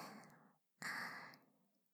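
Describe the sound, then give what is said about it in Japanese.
A child taking a deep breath: two airy breaths, a softer one followed after a short pause by a louder, gusty one that slowly fades out. “ぼくちゃん吸って吐いて、”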